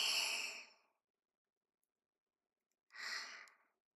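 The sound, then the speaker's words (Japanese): Deep breaths are taken during a guided breathing exercise. Two soft, airy breaths are separated by a few seconds of silence. “まず深呼吸してください。吸って”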